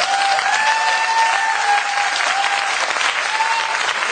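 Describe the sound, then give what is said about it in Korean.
Audience applause at a live event: dense, steady clapping holds at an even level for about four seconds, with faint sustained tones running beneath it. “별로 재미있다는 말 듣고 박수 치는 거예요.”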